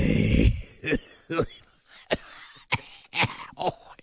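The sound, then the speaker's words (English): A voice imitates a pipe smoker's wheezing on waking, starting with a loud raspy burst and continuing as a string of rough, wheezy breaths, throat-catching coughs and groans at irregular intervals. “I want to hear his lungs first thing in the morning. I bet he's wheezing. I bet he wakes up and it's very much,”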